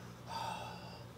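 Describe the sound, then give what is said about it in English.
A single soft, breathy huff blown onto a humidity sensor to fog it, lasting about a second over a low background hum. “If I take this and I breathe on it, kind of like you fog a mirror, I'm gonna go ahead and fog it.”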